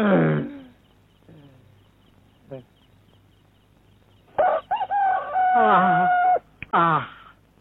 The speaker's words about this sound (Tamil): மனுஷன் தான் 8 மணிக்கு எழுந்திருக்கிறான்னா சேவல் கூட 7 மணிக்கு தான் எழுந்துச்சு கூவுது.